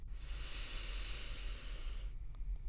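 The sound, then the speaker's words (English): One long, slow breath during a guided meditation session, a soft airy hiss sustained for about two seconds before stopping, over a faint low hum. “let's take one last deep breath together. Breathing in deeply”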